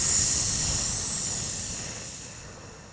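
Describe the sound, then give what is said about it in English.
A long, airy breath out during a guided breathing exercise: one steady hiss that slowly fades over a few seconds, with no talk. “Breathe in. Breathe out.”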